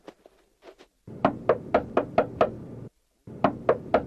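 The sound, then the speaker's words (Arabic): Knuckles knocking on a door: a few faint taps, then a run of six firm, evenly spaced knocks, a short pause, and three more knocks. “من الطارق؟ أنا الفضل بن الربيع، افتح يا شافعي.”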